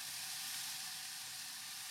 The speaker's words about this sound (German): Jetzt kommt schon direkt der Speck dazu. Jetzt kommt der Speck dazu schon.